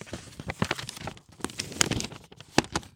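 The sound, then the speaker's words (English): A paper credit card brochure is unfolded and opened, giving off crinkling, rustling paper sounds with several sharp crackles spread across the moment. “So, I open the brochure.”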